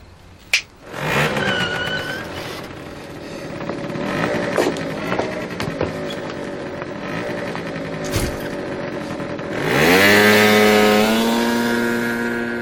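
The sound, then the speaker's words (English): A Vespa scooter engine drones as the rider pulls away, its note holding steady before climbing in pitch and growing louder as it accelerates near the end. “White flipping off Kate and Pete as he rides away on a Vespa driven by Michelle.”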